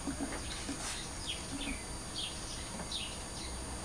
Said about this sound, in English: Can you hear the birds singing?